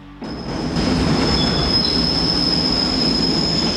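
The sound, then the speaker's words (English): Train rumbling over a bridge: a loud, steady roar of wheels and cars with a high, continuous wheel squeal running through it, rising abruptly from near quiet at the start. “A train rumbles over the bridge outside Nelson's apartment”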